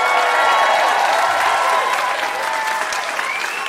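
Live theatre audience at the Hot Docs Theater in Toronto, Canada, applauding: dense, loud, continuous clapping from a large crowd that holds steady throughout and eases slightly toward the end.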